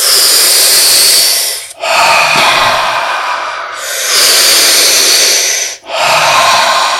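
Deep breaths drawn in during a breathing exercise, taken one after another without pausing: loud, broad airy hisses in a few long stretches, each broken by a brief gap.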